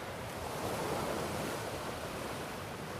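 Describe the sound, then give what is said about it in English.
Gentle waves lapping at the water's edge on a sandy beach, a soft, continuous wash of surf with no distinct breaks and no voices. “No one else is around, so the only sound you can hear is the gentle lapping of the waves at the water's edge.”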